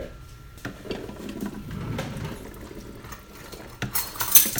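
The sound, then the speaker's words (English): Cooked beans are tipped back into a pot with a few light scrapes, clinks of utensils and soft wet shuffling. Sharper metallic clatters come toward the end. “Okay, the beans are going to go back into the pot now, right? Yep, they're ready.”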